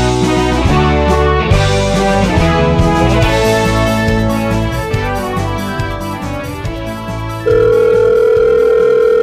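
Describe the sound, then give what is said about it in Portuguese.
A steady, unbroken telephone dial tone starts near the end as a call is placed and holds to the close, after a stretch of harmonic music that softens before it. “Deixa eu pegar o número aqui, vamos ligar que, que...”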